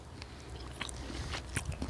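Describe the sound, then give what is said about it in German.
Soft, crunchy bites and chewing on a Jägerknacker sausage: a few faint snaps and moist mastication sounds repeat irregularly over low background noise, with no talk. “Und dabei essen wir einen Jägerknacker.”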